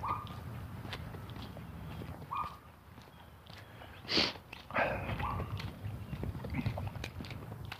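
Footsteps on a morning walk outdoors: faint, regular steps with a few louder scuffs, against quiet background noise.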